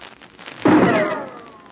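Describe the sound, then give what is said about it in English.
Rifle shot in a snowy mountain valley by moonlight: one sharp, loud burst with a long, slowly fading tail over a faint steady background. “Did you hear that rifle shot?”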